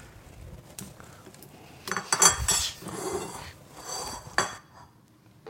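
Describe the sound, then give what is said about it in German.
Plates and cutlery clink as food is served onto two plates after a meat dish is garnished with parsley: a few sharp, bright clatters at irregular intervals, with no talk. “Wenn du mir 2 Teller geben würdest, könnte ich anrichten.”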